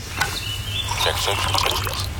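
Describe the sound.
Coffee pours into a cup in a steady, unbroken trickle of liquid that runs for about two seconds at an even, moderate level.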